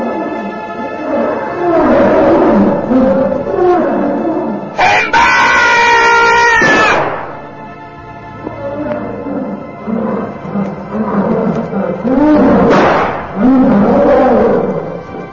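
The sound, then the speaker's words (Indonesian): Ferocious bears roar as they are struck by gunfire in an Arctic hunting scene: loud, repeated growling roars with harsh, screaming peaks and a dense burst of noise in the middle. “Beruang ganas itu tampak meraung-raung disambar peluru.”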